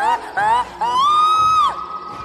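A woman's shrill scream as she recoils against a tomb in a horror drama: a few piercing, high-pitched shrieks, the last long and sustained before it breaks off, loud and alone.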